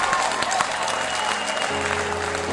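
Congregation clapping hands during a church service, a dense, continuous clatter of many hands, with low sustained musical tones joining underneath in the last second.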